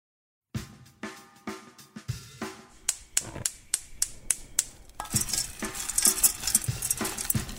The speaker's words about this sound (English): I'm stirring up the pellets of the treacle. I'm stirring them up to melt them uniformly in the pot, and you can see how sticky that is.